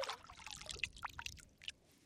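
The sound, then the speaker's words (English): A hand dips into the murky water of the Banana River, making faint small splashes and drips: several brief watery sloshes that trail off near the end. “dips his hand in the murky water”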